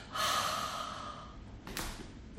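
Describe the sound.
A forceful breathy exhale during a yoga flow: a long rush of air lasting about a second, then a shorter second breath.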